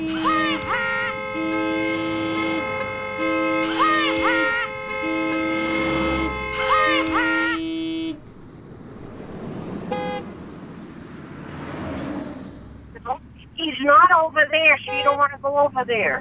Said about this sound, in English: Keep honking. Keep honking,